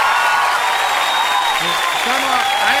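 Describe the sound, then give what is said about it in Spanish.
Applause from a radio station team: a steady, dense wash of clapping with a voice talking over it. “un saludo y un aplauso gigante del equipo de la Radio Sembrada.”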